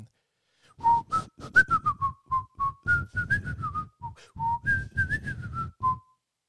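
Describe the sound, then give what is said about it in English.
A person whistles a bright, lively tune of many short, quick notes, imitating someone whistling in a toilet; the whistling stands alone with no talk. “Someone's come in whistling, and they've done like”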